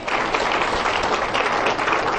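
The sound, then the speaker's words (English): A church audience claps hands together in dense, continuous applause, a steady wash of many overlapping claps at even loudness throughout. “Give the Lord a hand clap, everybody.”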